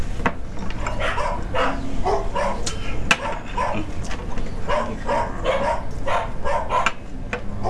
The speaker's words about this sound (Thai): เสียงเหมือนหมามันร้องไหมอะค่ะ อ๋อหมาคนข้างบ้านอะ